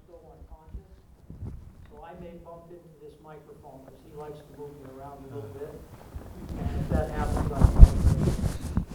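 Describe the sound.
Wind noise in a wind tunnel, recorded on a small body-worn recorder: people talk at first, then a rough, buffeting roar swells and dominates the final seconds.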